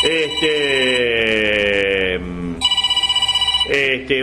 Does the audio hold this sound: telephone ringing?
yes